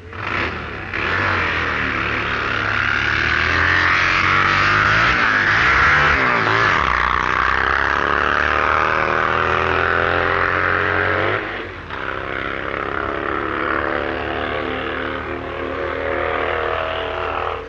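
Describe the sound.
A supercharged Vincent-engined racing sidecar outfit roars through a timed sprint run as the rider misses a gear. The engine note is loud and sustained, with shifting pitch, then breaks off abruptly near the end before picking up again.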